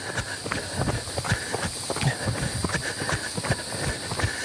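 Footsteps on a trail during a long run, mixing running and walking: many rhythmic, dull footfalls at a steady, brisk pace that continue throughout.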